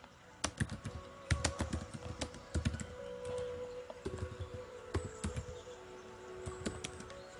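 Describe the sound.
Typing on a computer keyboard: many quick, irregular key clicks arriving in bursts, fairly quiet, with no talk over them.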